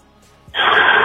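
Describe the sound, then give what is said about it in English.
A deep breath drawn in during seated meditation, a sudden loud breathy rush of air after a brief quiet moment, holding steady to the end. “I take a deep breath.”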